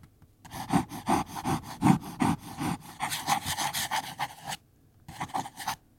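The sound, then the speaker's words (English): A Sailor Pro Gear fountain pen scratches across paper in many quick, rhythmic rasping strokes. A short pause falls near the end before a few more strokes follow. “I'm going to unscrew the cap. This one's a fountain pen. Let's hear how it sounds on the paper.”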